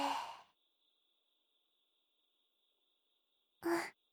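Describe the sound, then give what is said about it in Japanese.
Two soft breaths during a slow breathing exercise, one at the start and one near the end, separated by a long quiet stretch with a faint steady high tone underneath. “吐いて、吸って、吐いて。”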